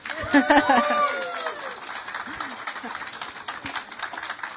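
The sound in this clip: Audience applause welcoming performers on stage at a sci-fi weekender in Great Yarmouth, dense loud clapping with whoops and shouts at the start that then settles into steadier, slightly softer clapping.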